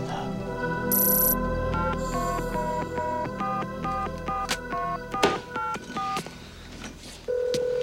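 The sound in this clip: Telephone keypad tones dial a toll-free number: a rapid run of many brief, clear beeps in a steady rhythm over a low hum. A steady line tone then begins.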